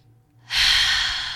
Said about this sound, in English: okay, first take a breath